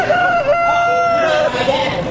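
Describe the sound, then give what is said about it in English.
A rooster crows loudly in a crowing contest at a state fair farm day: one long, harmonic, slightly wavering crow lasting over a second, followed by a shorter call. “And don't miss the rooster crowing contest. Here's one of the contestants.”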